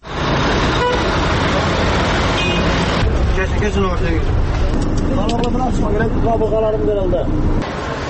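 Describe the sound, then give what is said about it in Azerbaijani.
A crowded city bus on route 60 in Binə, Baku, rumbles through steady traffic noise while car horns toot several times and passengers' voices chatter throughout. “Binə qəsəbəsində işləyən 60 nömrəli marşrutun sərnişinləri üçün bu hər günün simfoniyasıdır. Onları səhər qarşılayır, axşam yola salır. Ayaq basmağa belə yer olmayan bu avtobusdan şəhərə yalnız 160 nömrə işləyir.”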